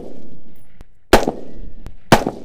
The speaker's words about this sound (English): An off-the-shelf, semi-automatic rifle fires one bullet at a time. A bump stock allows it to fire multiple rounds with one trigger pull. Here's an AR-15 with no bump stock.